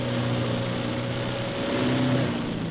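A truck engine drones steadily as the vehicle drives on an icy road on a cold night, a continuous low humming rumble with no voices.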